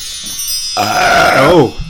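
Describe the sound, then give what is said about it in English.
A loud, drawn-out belch: one long, voiced burp lasting about a second, with a rough, wavering low pitch. “Like the ability to produce ear-shattering belches.”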